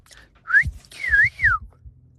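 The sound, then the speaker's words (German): A person whistles a family's signature call: a short tune of a few clear, high whistled notes, some sliding down and one rising, with faint low background noise underneath. “wir haben im Fall sogar extra einen Familienpfiff. Da geht er so.”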